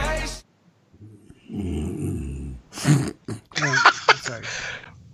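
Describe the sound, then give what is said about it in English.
A single low, rumbling snore rasps for about a second after a short noisy burst, then voices start talking right after it. “What the hell was that? What was that? That was a snore.”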